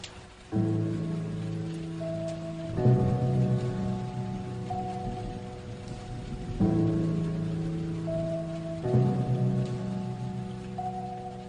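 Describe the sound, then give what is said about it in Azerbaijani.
Heavy rain pours in a steady, dense hiss throughout, with low sustained droning tones beneath it that shift every few seconds. “Ne ağır yağış ya.”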